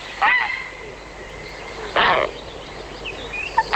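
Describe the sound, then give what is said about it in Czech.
A barn owl calls with two harsh, hoarse screeches, each brief and rasping, separated by a pause of about a second and a half, with faint chirps between them over a low background hiss. “To je sova pálená, ona byla poslední, za husicí Nilskou a taky za volavkou Popelavou. Ta zní takhle.”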